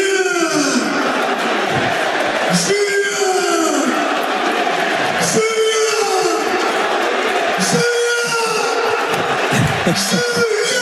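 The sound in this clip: Stadium crowd at a rugby match at Stade Gaston Gérard celebrating in the final minutes: loud, continuous cheering and chant-like singing that rises and falls in repeating waves, with a voice talking over it.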